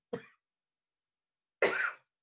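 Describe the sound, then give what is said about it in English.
A person coughs from choking on saliva: a short cough, then a pause, then a longer and harsher cough. The two bursts are moderately loud, with no talk. “Sorry about that. Choking on your spit, man.”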